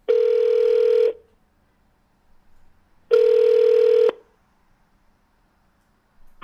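A telephone line rings through as a call is dialled and connects: two loud, buzzy ringback tones of about one second each, separated by roughly two seconds of near silence with only a faint murmur.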